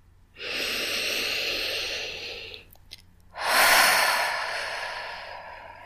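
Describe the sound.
Deep human breathing during a guided relaxation: one long, airy inhale, a brief pause, then a long exhale that starts loud and slowly fades, heard alone with no talk.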